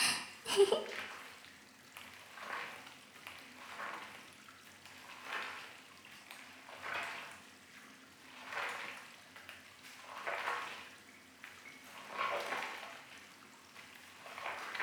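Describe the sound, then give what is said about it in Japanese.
Soft, wet swishing of soap being worked into fluffy foam during a bath, repeating in a slow, steady rhythm of many gentle strokes, faint and close. “泡が足りなくなってきたので、もう一度石鹸を泡立てて、ふわふわにして”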